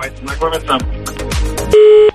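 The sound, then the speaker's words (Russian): Telephone tone on a radio phone-in line: a single steady beep sounds near the end, following brief voices and background sound. “И есть у нас телефонный звонок, давайте знакомиться.”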